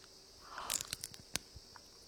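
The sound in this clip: Faint crunching as raw sea squirt (hoya) is bitten and chewed: a few crisp, moist crunches, one louder snap standing out.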